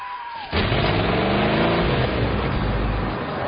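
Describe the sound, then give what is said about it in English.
A pickup truck speeds along a road with passengers inside, its loud, steady engine and road roar cutting in abruptly after a brief quieter moment and holding at an even level to the end. “The pickup's still speeding along the road with its hillbilly passengers inside.”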